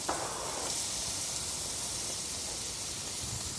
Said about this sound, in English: Once your ghee or oil is starting to shimmer a little bit in the pan, you want to scoop in the red peppers and the onions.